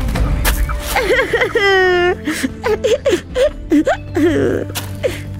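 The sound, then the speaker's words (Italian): A woman cries, letting out loud, wavering, high-pitched whimpers and drawn-out wails broken by catching breaths and sobbing sounds. “Perché piangi?”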